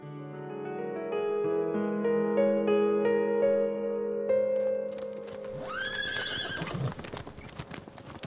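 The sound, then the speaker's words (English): Horse-drawn carriage on a night ride in a radio drama: steady clip-clopping hooves over sustained tonal sounds, then a loud, shrill horse neigh near the end. “We'll start with Harker and a stranger on a carriage ride at night to Castle Dracula.”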